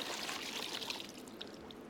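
Water is poured out during a church sermon demonstration, a steady splashing, trickling stream that runs throughout, fairly faint and with no speech over it.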